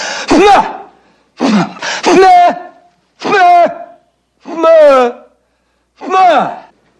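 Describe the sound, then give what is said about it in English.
A man forces pressure into his head to clear his ears, making six loud, throaty straining grunts. They are voiced and wavering in pitch, with short silent gaps between them. “I'm trying to clear up my ears. You create a pressure inside your head. It opens up the eustachian tube.”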